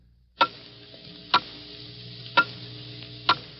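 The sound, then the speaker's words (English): Clock ticking off the final seconds of a New Year's Eve countdown: four sharp, fairly quiet ticks spaced about a second apart over a low, steady background hum. “Hear it? Those are the last fading moments of 1950. The clock is steadily counting them out.”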